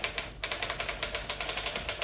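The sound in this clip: A typewriter types out a dictated letter, a rapid, even run of many crisp clacking keystrokes at a steady rhythm, fairly faint and with no voices over it.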